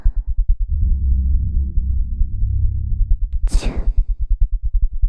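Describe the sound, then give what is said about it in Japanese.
Steady heartbeat thumps, low and regular, pulse through the whole stretch. A sustained low drone sits under the middle section, and a brief airy whoosh comes partway through. “心臓の音も聞こえてきたね。ドクン”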